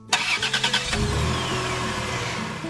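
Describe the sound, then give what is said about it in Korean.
A 23-year-old car, about to be scrapped, starts up: a quick series of cranking pulses, then the engine catches and settles into a steady running rumble. No voices are heard. “요즘 차에서는 잘 안 들리는 구닥다리 소리도 이제 안녕이네요.”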